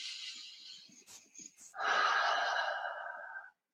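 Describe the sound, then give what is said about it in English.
A deep breath is taken during an EFT tapping healing session: a soft, airy inhale is followed by a longer, louder exhale that stops abruptly. “So take a deep breath in and out.”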